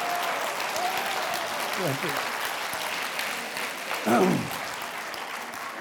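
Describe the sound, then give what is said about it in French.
A lecture audience gives an ovation: dense, steady applause that holds at an even level throughout, with a couple of brief voices rising out of it. “Bon, avec une telle ovation, j'ai l'impression que tout le jour, c'est la leçon inaugurale.”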